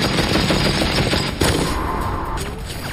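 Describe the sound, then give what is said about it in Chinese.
A German MG42 machine gun fires in a continuous, dense, tearing roar. The shots are too rapid to count and stay loud and sustained throughout, with no voices. “MG42 是德国人制造的一种多用途机枪，拥有令人生畏的射速，1分钟1500发子弹，听起来就像布匹撕裂的声音。”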